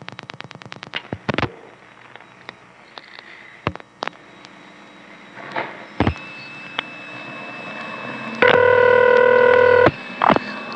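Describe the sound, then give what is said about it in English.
A telephone dials a call to an exchange near Washington. A quick run of clicks at the start gives way to scattered clicks, then a loud, steady multi-tone signal sounds briefly near the end. “I'm now going to dial a call to intercept in an exchange that is close enough to Washington to have Washington”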